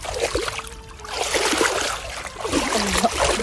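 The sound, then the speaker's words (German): Water of the Danube river rushing and splashing, a steady loud wash of water noise with some swells and uneven splashy surges throughout. “Und, um alles zu vervollkommnen, natürlich direkt wieder in die Donau springen. Ab ins kühle Nass.”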